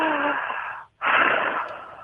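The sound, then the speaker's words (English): Deep breathing demonstrated by a person: a long, airy breath, a brief silent pause, then a second long, steady breath, loud and alone with no talking. “you're going to have to give us an example of how we should breathe. Okay. Here we go. Just breathe.”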